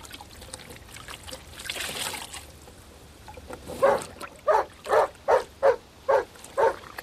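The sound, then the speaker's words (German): A tame dog barks seven times in a quick, fairly regular series during the second half, after a stretch of low, trickling background noise. “Der Hund? Er ist zahm. Hör auf, komm her. Sei ruhig.”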